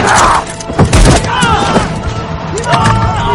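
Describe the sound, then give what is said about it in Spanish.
A gunshot as a villager shoots a soldier in a film drama: one sharp, heavy blast stands out among voices and other busy sound. “Un aldeano dispara al soldado recibe un tiro en la pierna.”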